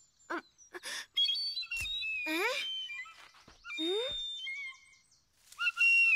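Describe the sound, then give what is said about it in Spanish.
A feather whistle being blown in several short, shrill bursts, some sliding upward in pitch, with brief gaps between them and a longer sustained stretch in the middle. “Te quiero decir algunas cosas sobre este silbato de pluma, hijo.”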